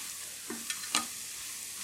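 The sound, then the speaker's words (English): Garlic and vegetables frying in a pan give a faint, steady sizzle, broken by a few light scraping stirs. “Give those veggies just another minute to cook. I guess we can talk about the tomatoes while we're waiting on the garlic to go”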